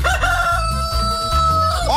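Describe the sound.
A rooster named Claudio crows at dawn, one loud, long, tonal call held steady before breaking off at the end, with no voices over it.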